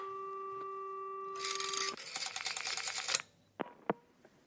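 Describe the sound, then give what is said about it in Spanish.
Telephone line cutting off during a stage production of Cocteau's The Human Voice: a steady two-note line tone gives way to a burst of rattling, buzzing clicks, then near silence with a few isolated clicks. “Se corta la línea, señorita.”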